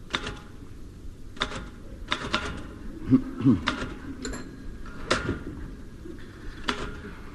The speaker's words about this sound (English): Haven't you finished typing out those invitations yet?